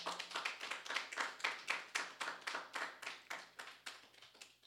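Church audience clapping in unison, a quiet, steady beat of many evenly spaced claps that keeps a regular rhythm from start to finish.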